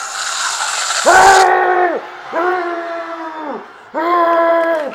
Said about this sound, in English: Holy shit, guys, Clowny Ben just sprayed something in his face. Holy shit. Oh my god. Is that acid? Oh man, he really is like the Joker. Yeah, that's my acid squirting flower.